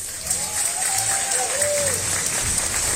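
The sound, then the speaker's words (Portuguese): Audience applause in a crafts fair hall in Paraíba, greeting the governor: a dense, steady wash of clapping that lasts the whole clip at an even level, with a faint voice and a thin whistling tone above it. “Aproveito para pedir a cada um e a cada uma de vocês uma salva de palmas para o nosso governador,”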